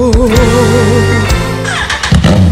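A motorcycle engine revs loudly in a steady droning roar whose pitch wavers, with a few sharper surges and drops.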